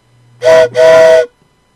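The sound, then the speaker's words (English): A toy train's steam whistle gives two loud, bright blasts, a short one and then a longer one, each holding a steady pitch. “That's Thomas Train.”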